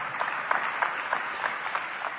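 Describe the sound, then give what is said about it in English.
Audience applause honoring students after a celebratory event, a steady, even roll of many clapping hands at moderate loudness, with no talk over it. “Give a big round of applause to all these beautiful students and made the event a grand success.”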